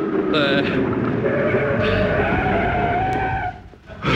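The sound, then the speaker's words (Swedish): A car brakes hard on a town street while pulling up to the curb, its tires squealing in a loud, sustained rasp with a slowly rising whine for about three and a half seconds. The sound drops away, then briefly returns. “Bromsa nu då, bromsa. Bromsa.”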